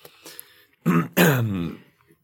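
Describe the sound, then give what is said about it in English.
Gruff throat clearing performed during a tabletop role-playing game, two rasping voiced bursts, a short one followed by a longer, heavier one, set against near silence. “behind you, you hear someone clearing their throat.”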